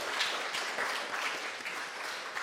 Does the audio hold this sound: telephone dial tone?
no